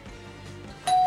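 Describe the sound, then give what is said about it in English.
A Ring doorbell chime: a clear, bright tone rings out suddenly near the end over a low, faint tonal background. “Our show today is brought to you by the Ring Doorbell. Oh. Do you hear that?”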